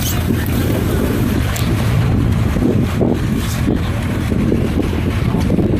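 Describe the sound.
An inflatable rescue boat driven by firefighters moves through floodwater covering a village road, making a steady, loud rushing and rumbling noise with heavy wind buffeting throughout.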